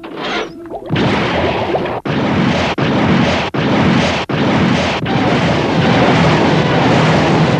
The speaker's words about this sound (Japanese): よし、作戦2号ミサイル発射用意。 ミサイル発射用意。 発射！ 発射！